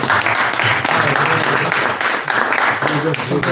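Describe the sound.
Audience applause, dense and steady clapping that fills the whole stretch, with voices mixed in.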